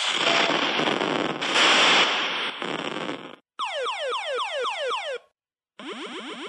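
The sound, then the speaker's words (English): Arcade sound effects from the original Missile Command cabinet begin with a long, roaring, noisy explosion burst. Rapid runs of falling electronic zaps follow, stop for a moment of silence, then start again. “here is the legit Missile Command that you played in the in a real arcade.”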